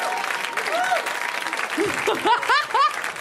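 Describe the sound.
Audience applause at a comedy show: steady, dense clapping throughout, with a man talking over it.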